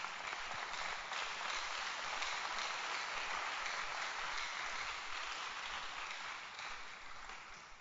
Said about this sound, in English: And this morning, you can clap your hands.